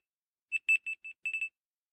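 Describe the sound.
Alarm tone previewed on an Android phone: a quick pattern of short, high, clean electronic beeps in two groups, with a brief gap between them, playing alone against silence.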